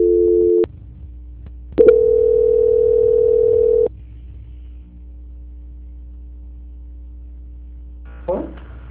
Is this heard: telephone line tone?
yes

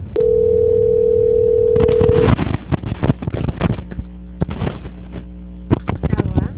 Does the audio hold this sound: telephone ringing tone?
yes

